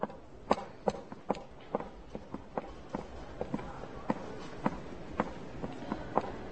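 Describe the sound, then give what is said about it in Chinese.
Footsteps of someone walking away, many steady, evenly spaced steps with crisp, fairly light impacts over a low background rumble. “啊，那我走了，拜拜。”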